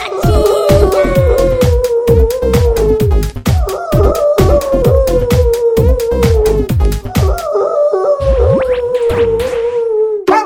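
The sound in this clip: A large dog howls and whines at six in the morning, in a run of loud, repeated falling cries that continue steadily throughout, with short pauses between them.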